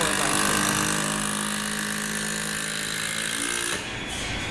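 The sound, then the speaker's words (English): A power screwdriver drives a four-and-a-half-inch screw into cedar wood with a continuous, buzzing mechanical whir that cuts off abruptly just before the end. “She's screwing the... it's an actually four and a half high screw that she's screwing into the cedar log.”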